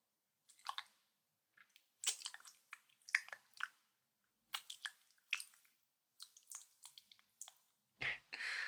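Close biting and chewing sounds: many soft, wet squishes, smacks and clicks in irregular bursts, faint against silence.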